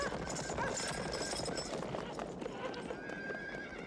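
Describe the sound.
Horses' hooves trample in a dense, continuous clatter of many overlapping hoofbeats, and a horse's whinny rises briefly above it near the start.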